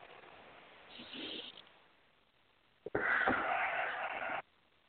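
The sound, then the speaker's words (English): Deep breathing with a wheeze, a softer raspy breath followed by a longer, louder wheezing breath that stops abruptly, with no talk. “And take a nice deep breath. Okay, take another nice deep breath.”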